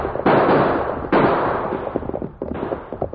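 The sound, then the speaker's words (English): Gunfire as guns are fired at fleeing outlaws during a chase: three loud, sharp blasts, each trailing into a long, rumbling, crackling decay, with smaller cracks scattered between them. “Use your guns, Tonto!”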